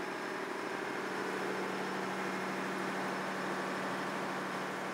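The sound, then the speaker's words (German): Faint, steady drone of a tugboat's two diesel engines running, an even low hum with a broad hiss on top, unchanging throughout with no voices. “Die Dieselmotoren können starten. Wir haben ja zwei, die haben ordentlich Power hier, dass wir hier ordentlich große Pötte mitziehen können”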